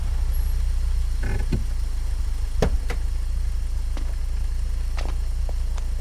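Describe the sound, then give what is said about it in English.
A sports car pulling up, its engine giving a steady, loud low rumble throughout, with a few sharp clicks and knocks over the top. “Jim pulls up in the sports car in front of Jackie.”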